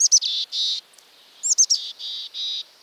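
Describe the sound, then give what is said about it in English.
A mountain chickadee calls among conifers in the Rockies: two phrases, each a few quick high notes followed by husky, buzzy drawn-out notes, clear and alone with silence between. “Hike among conifers in the Rockies, and you'll be greeted by the husky voice of a mountain chickadee.”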